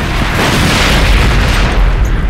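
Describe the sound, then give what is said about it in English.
An explosion mangles and consumes a gunship in a loud, sustained roar of dense rumbling noise that holds steady throughout, with no separate bangs. “It was the interference that saved them from the explosion that mangled and consumed the gunship.”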